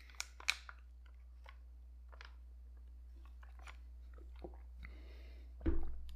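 Someone chews dry, cardboard-like food. A few crisp, sharp crunches come at the start, followed by faint, scattered chewing clicks and a louder crunch near the end.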